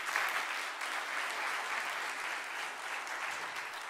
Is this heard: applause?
yes